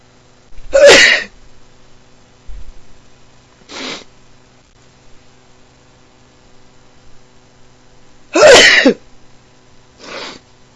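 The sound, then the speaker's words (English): Two loud, sharp sneezes, several seconds apart, from a person with a dog allergy just after playing with the dog. Each is followed by a softer, breathy burst, with a low hum in the background. “Sometimes it makes me sneeze, sometimes he doesn't.”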